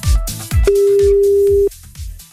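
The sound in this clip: Ringback tone on an outgoing phone call: one steady, even, mid-pitched tone lasting about a second, with rhythmic low thumps pulsing underneath before, during and after it.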